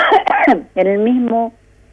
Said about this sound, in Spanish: Perdón, justo me agarró un ataque de tos.